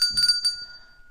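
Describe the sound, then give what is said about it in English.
A desk bell rung to call for a beer gives a quick burst of a few bright, metallic dings, then a clear ringing tone that slowly fades to quiet. “Or you could get a bell. Lady Faye got this for me for Christmas. It says, ring for a beer.”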